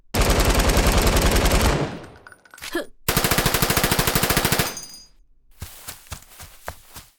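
Machine-gun fire from a team shooter video game: two long, rapid automatic bursts separated by a short gap, followed by a few scattered, softer single shots.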